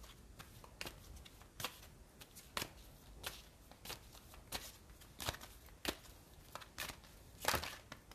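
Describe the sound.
Cards from an oracle deck being shuffled: many crisp, papery riffling bursts in an irregular but steady rhythm, with no voices.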